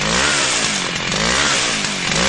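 A chainsaw runs loud and steady for the whole stretch, its engine a continuous buzzing roar. An elder is using it while community members put up barbed wire fencing.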